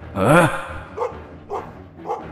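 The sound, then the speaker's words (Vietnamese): A dog barks in the middle of a quiet night: a louder, drawn-out voiced sound opens, then three short, evenly spaced barks follow. “Lúc này tiếng chó lại sủa lên giữa đêm vắng.”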